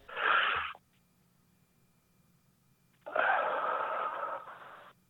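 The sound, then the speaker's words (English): Two deep, loud breaths, a short one first, then a longer, sustained one after a pause of near silence. “Let me take a couple deep breaths.”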